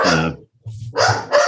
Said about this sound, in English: the dogs are barking and she's pressed her bark button